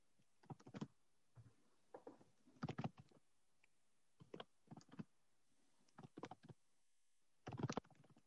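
Typing on a computer keyboard during a meeting: quick clusters of key clicks separated by short pauses. The clicks are faint, with no talking.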